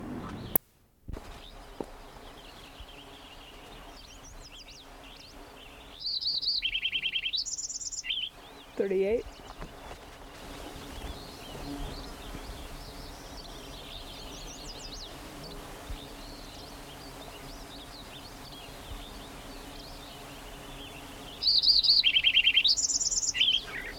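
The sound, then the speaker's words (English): Lincoln's sparrow song in two bright, high-pitched bursts of quick warbled notes, separated by a long, quieter stretch of faint background sound. “Lincoln Sparrow number 1, continued.”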